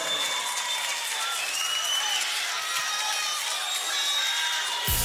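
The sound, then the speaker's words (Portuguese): An audience applauds to welcome a performer. Dense, sustained clapping runs loud and even for the whole stretch before stopping abruptly. “Bora aplaudir!”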